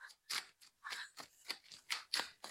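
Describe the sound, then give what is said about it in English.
Playing cards handled up close for ASMR, a soft series of crisp snaps, flicks and papery taps in an uneven rhythm, with no talking. “Time for the card ASMR.”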